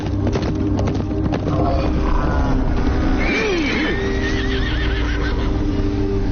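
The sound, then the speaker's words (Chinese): A frightened horse neighs in a long, wavering whinny with a shaky, quivering pitch. It rises over a constant loud, noisy rumble in a mountain setting. “这是什么在叫？ 八百里太阴山绵延不绝，生有各种怪禽奇兽，马儿害怕很正常。”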